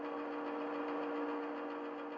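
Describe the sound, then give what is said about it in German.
A petrol generator engine runs with a steady, even drone and a constant low hum, holding the same quiet level throughout with no change in pace and no voices. “Das ist ein Benzinmotor, der Strom erzeugt, erklärte Zora.”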